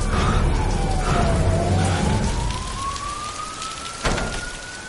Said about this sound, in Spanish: En la calle hay una ambulancia y varios policías.